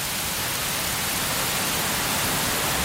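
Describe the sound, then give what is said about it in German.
Rain falls outside a studio window in Mainz, a dense, even hiss of drops that holds at one level for the whole few seconds, with no talk over it. “Hier regnet's. Also, falls ihr es immer noch trocken bei euch habt, ich schicke euch mal ganz kurz hier”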